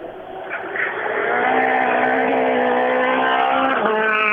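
Race car engine running smoothly and quietly at low revs: a steady, humming drone with clear harmonics that swells slightly in the first second, then holds an even, moderate level with no voices.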